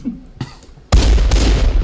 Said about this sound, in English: Shots fired!